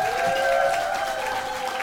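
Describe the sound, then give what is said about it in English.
Audience applause at a comedy club on St Patrick's night welcoming a comedian to the stage, a dense, even wash of clapping with a sustained tone running beneath it. “Ladies and gentlemen, please give it up for your next comedian here at Ellie's Comedy Club. You're going to love this guy. Welcome to the stage”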